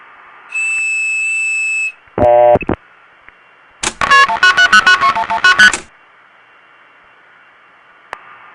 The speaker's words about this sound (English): So I'm going to blow the whistle.